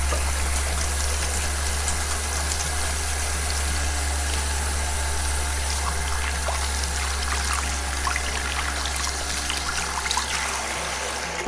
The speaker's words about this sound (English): But first, we should probably all take a moment to wash our hands.